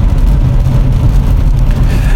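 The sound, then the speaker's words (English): Driving noise inside an electric car that carries a very small gas tank: a loud, continuous low rumble of road and drivetrain with no clear change in pitch. “I am in an electric car that does have a little tiny gas tank.”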